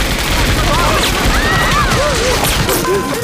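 A volley of gunfire in a drama scene aboard a boat: a dense, loud, continuous crackle of shots runs throughout, with people shouting over it.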